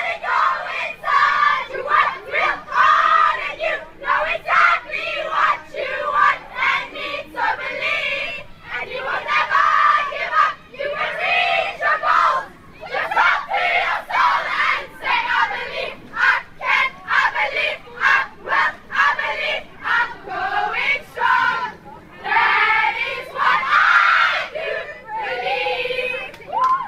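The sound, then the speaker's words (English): A war cry chanted by a Pretoria girls' school hockey team: many voices shout rhythmic, punchy syllables in tight unison, a fast chain of bursts with short gaps, kept up for nearly half a minute. “It's the hockey team, apparently. Do you recognize that chant?”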